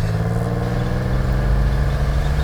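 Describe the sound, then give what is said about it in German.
An old MG sports car's engine is driven hard at speed, giving a loud, steady, rumbling drone with a dense low growl that holds level throughout, with no talk over it. “Fahr schneller! Noch schneller? Dein MG ist doch ein Sportwagen. Ja, aber ein alter Sportwagen.”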